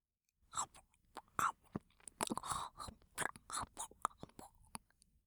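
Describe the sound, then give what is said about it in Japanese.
Soft, wet chewing of gummy candy, with many quick, irregular bites and squelches in close succession, faint and alone without talk. “そしてこの噛み心地、グミキャンディを食べるたびに、アウトローな気持ちになっちゃいそうだわ。”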